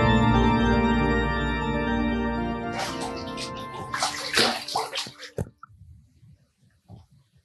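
Water pouring into a bathtub as it fills, a loud, steady rushing flow that turns uneven and splashy, then cuts off abruptly into near silence.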